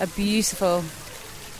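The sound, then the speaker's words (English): A fountain splashes and pours beside a swimming pool at a villa hotel in the Andalusian foothills between Marbella and Estepona, a steady watery hiss under brief talk that continues alone once the voice stops. “The noise you can hear behind me is the fountain next to the swimming pool of the Villa Padierna”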